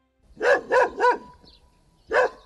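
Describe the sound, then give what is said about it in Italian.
Dog barking outdoors beside a quiet wood-chip plant at Cossato: four sharp, loud barks, three in quick succession, then a pause before a single final bark. “Unico rumore esterno è infatti questo abbaiare di un cane”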